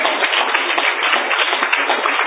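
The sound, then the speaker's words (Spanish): A church audience claps in praise of Christ during a Spanish-language sermon: dense, even applause at a steady level throughout, sounding thin and muffled. “¿Cuánto le pueden dar un aplauso a ese Cristo maravilloso?”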